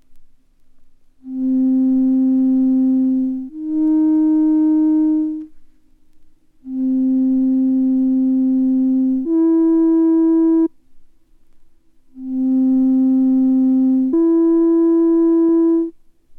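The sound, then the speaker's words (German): Pure sine tones in three matching pairs, each a steady low tone followed by a slightly higher one forming an acoustically defined third. The pairs are separated by short silences, with no voices. “sich an Sinustönen nicht so leicht orientieren kann wie an obertonreichen Klängen. So zum Beispiel, wenn Sie jetzt die folgenden in der Akustik genau definierten Terzintervalle hören.”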